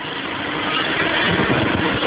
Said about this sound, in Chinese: 这个时候可以从这个排气阀里面排出大量的气体，而这个时候油表是停止的